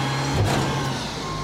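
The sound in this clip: A garbage truck reversing gives a low, constant engine rumble under a steady high-pitched warning tone.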